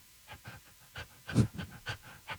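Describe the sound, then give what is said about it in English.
Voices imitate a panting puppy with several short breathy huffs in an uneven rhythm, some louder than others. No words are spoken. “do a little panting and barking and puppy talk to each other”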